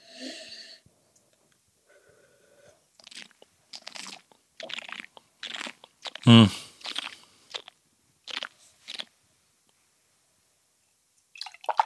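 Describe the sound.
Sipping and slurping while tasting a 2018 single-varietal Merlot red wine: faint mouth clicks and breaths, then one loud, wet slurp midway, followed by softer, scattered mouth noises.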